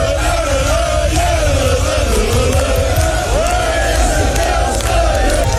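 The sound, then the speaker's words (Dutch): Telstar football fans cheer and sing to greet their team bus, which arrives among flares. A loud, unbroken mass of voices sustains a drawn-out chant with wavering melodic lines. “De spelersbus van Telstar is met een boel gejuich en fakkels ontvangen.”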